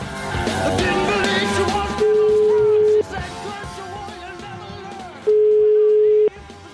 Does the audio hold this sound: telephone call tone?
yes